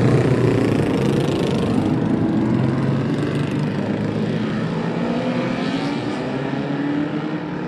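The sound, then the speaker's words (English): Roaring engines of 1100cc classic racing motorcycles setting off at a race start: a dense, loud, continuous mechanical drone that holds steady throughout, with no voices. “the A.D. Hewitt Dental Practice 1100cc Classic Race. The machines are away. What a noise.”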